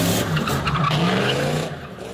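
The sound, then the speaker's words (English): Tires skid and screech as cars spin around a park parking lot in Las Cruces during an enthusiasts' car meet. One loud, continuous rasping squeal with engine roar runs throughout and eases slightly near the end. “Enthusiasts show off their vehicles and sometimes skid around the parking lot in chaotic and dangerous fashion, as shown in this video obtained by Las Cruces police.”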